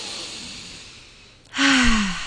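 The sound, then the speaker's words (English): A deep cleansing breath during a breathing exercise: a long, soft inhale that gradually fades, then a louder voiced sighing exhale that falls in pitch. “So let's take a cleansing breath first, whichever you prefer.”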